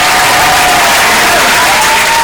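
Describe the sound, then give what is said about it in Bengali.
Loud, continuous applause from an audience during a cricket quiz, a dense steady clatter of clapping filling the whole short stretch without a break. “যারা যারা ভুবনেশ্বর কুমার বলছো তাদের জন্য জোরে হাততালি”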